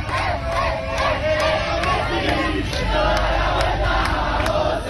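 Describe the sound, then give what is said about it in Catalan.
Argentine fans celebrating a World Cup win on Passeig de Gràcia in Barcelona: a loud, dense crowd roar with chanting and shouting that holds steady throughout. “I arran d'aquesta victòria de l'Argentina hi ha hagut festa grossa a Barcelona.”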